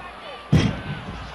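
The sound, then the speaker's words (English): A wrestler body-slammed onto the ring mat: one sudden, heavy thud with a short rumbling tail, standing out against a steady low background. “Now Koloff going for the slam.”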